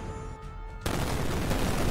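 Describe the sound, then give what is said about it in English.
Heavy assault rifle gunfire sound effect in a role-playing game session, a dense, loud wash of noise that jumps in intensity partway through and then continues steadily without a break, with no talking. “So you see this heavy assault rifle basically swing around with these, like, massive rounds that just start, like, shooting all around you.”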